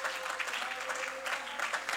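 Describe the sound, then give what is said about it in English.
A church audience applauds in a steady, dense patter of many clapping hands that stays fairly faint throughout. “Go ahead, clap your hands. Amen. And exalt and applaud him today for who he is.”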